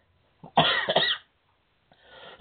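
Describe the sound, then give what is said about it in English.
A harsh cough from someone getting over an illness: one strong rasping burst, a brief pause, then a softer breathy exhale. It stands alone with no talking. “I apologize for the cough there. We're both kind of getting over something, I think.”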